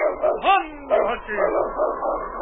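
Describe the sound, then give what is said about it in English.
Barks and high yips from a sled lead dog in the Yukon, several sharp bursts with pitch bends, loud and repeated across the whole stretch. “It's Yukon King, swiftest and strongest lead dog of the Northwest”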